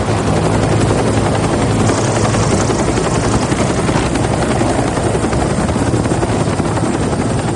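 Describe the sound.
A helicopter with a dark green fuselage bearing red numerals and stars outlined in white takes off, its rotor and engine producing a loud, steady roar that continues unbroken throughout without voices.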